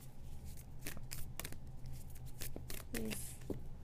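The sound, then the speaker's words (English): A deck of oracle cards is shuffled and drawn during a card reading, giving soft, papery riffling and flicking bursts in quick clusters, with a few sharper snaps between them. “I just need one right now and then one for the other one, please. Just one. One card for the Age of Light.”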